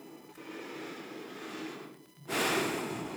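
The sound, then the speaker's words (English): A deep breath sounds as a soft airy rush, a brief dip, then a louder, forceful breathy burst that tapers off, heard alone without talk. “Gotta take a deep breath after that one.”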